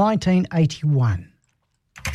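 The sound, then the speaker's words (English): Crisp clicks of typing on a computer keyboard, someone entering an online listing to sell a car, come as a brief burst after a voice speaks and a short silence. “Trying to sell my car on the internet. No, stop typing.”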